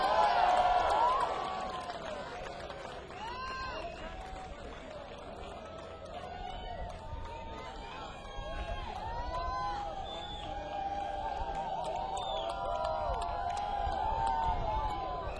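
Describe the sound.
Crowd cheering and applauding as a rock band is welcomed onstage at a radio-station concert, a dense, sustained roar with whoops and whistles that swells somewhat louder toward the end.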